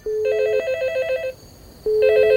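A telephone rings in two bursts of a bright, rapidly pulsing trill with a steady tone, separated by a short quiet pause.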